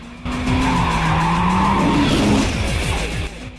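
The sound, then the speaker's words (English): Tires skid and squeal as a red Mitsubishi Evo is swung round in an attempt to drift, a loud sustained screech with wavering pitch over a rough engine drone. “Sean swings the red Mitsubishi Evo round in an attempt to drift and slams into creels.”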